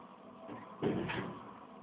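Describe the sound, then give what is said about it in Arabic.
A door being shut, a single short muffled bump with a brief rush of noise that fades within about half a second, faint against a quiet background and with no talk. “نسد الباب ولو زحمة عليكم، سدوا شيخ”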